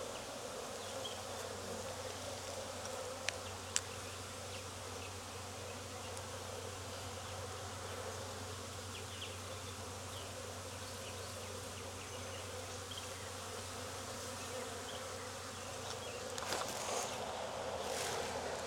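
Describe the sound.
Honeybees buzz around an open hive in a dense, steady hum with a low droning undertone, broken only by a couple of faint ticks.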